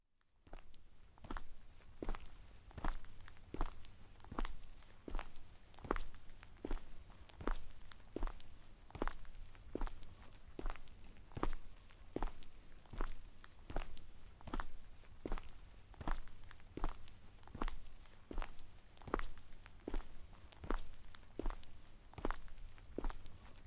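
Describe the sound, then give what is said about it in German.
Footsteps walk along an old-town street at a steady, even pace: many regular, crisp steps over a low, constant background hum, with no voices. “Wir gehen lieber auf der rechten Straßenseite, weil wir dann rechts in den Handelsweg”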